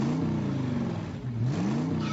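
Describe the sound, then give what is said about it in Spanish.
A Chevrolet Cheyenne Midnight Edition pickup truck engine revs loudly and continuously, its pitch climbing and falling in repeated surges with a brief dip near the middle, and no voices. “Chevrolet Cheyenne Midnight Edition. 250 unidades reservadas para el más grande legado.”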